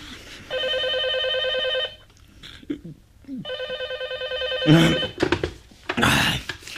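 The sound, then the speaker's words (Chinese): A telephone bell rings insistently in two long trilling bursts separated by a short pause, followed by brief rustling and knocking noises. “直到第二天午后才被持续不断的电话铃声勉强唤醒。”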